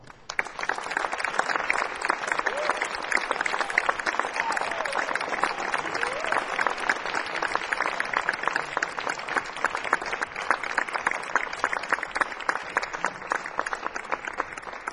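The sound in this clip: Audience applause welcomes the Paul Winter Sextet to the stage at a concert in Washington: dense, sustained clapping that holds steady for the full length without pause.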